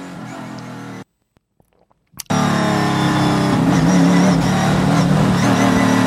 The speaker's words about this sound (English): This is them warming the tires up. So when you see guys scrubbing, the tires back and forth.